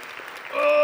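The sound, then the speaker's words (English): Audience applause welcoming a pastor to the stage at a church gathering swells in the second half of a brief burst, with a steady ringing tone sounding over the clapping. “So put your hands together and welcome Pastor Ryan.”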